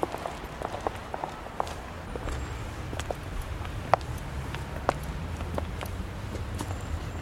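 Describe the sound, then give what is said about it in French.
Footsteps on the black marble steps of the Luxembourg Palace, heard as sparse, irregular hard clicks and taps over a faint steady hiss. “Ici, ce ne sont pas des bruits de pas sur trois marches de marbre rose. C'est du marbre noir, l'austère marbre du palais du Luxembourg.”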